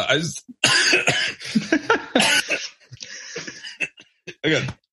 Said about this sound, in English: Went down the wrong pipe. Sorry. There's only one pipe.